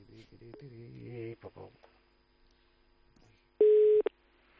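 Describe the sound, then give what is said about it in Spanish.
Telephone ringing tone as a live call is placed: one short, steady electronic beep near the end, loud and alone, after a stretch of faint, muffled talk. “Es el cumpleaños de Morientes y vamos a hacer la llamada en directo”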